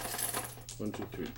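Dice clatter across a table during a tabletop war game, a quiet, quick run of hard little clicks and rattles over steady background hiss.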